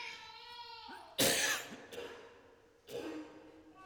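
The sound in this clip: Throat clearing comes in two rough, harsh bursts, the first louder, after a brief stretch of quiet talk.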